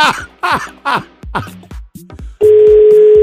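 A telephone call rings unanswered: a loud, steady electronic tone holds for about a second. Just before it, a few short voiced bursts come at a quick, even pace.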